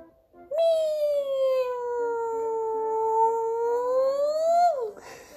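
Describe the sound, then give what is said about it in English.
A person's voice imitates a hungry kitten's meow as one long, drawn-out, nasal wail lasting over four seconds. The pitch dips slightly through the middle, climbs back up, then drops sharply at the end. “he's got this typical meowing depending on his mood, you know. So like when I'm a little late in giving him his feed, he would go”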